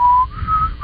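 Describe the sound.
A person whistles a short, clear, steady tone that steps up slightly in pitch after the first note and then holds. It is heard alone, with no talk.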